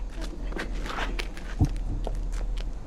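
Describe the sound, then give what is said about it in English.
Footsteps climb stone steps up to a stage: a few soft, irregular treads with light scuffs, and one heavier low thud midway. “Peacekeepers escort Katniss to the stage. She mounts the stone steps toward the beckoning MC, who guides her to the microphone.”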